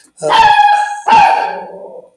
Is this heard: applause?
no